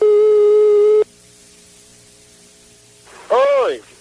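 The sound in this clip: A busy signal on a telephone line after a call drops during a prank: one steady beep of about a second, then a quieter low hum, and a short burst of voice at the end.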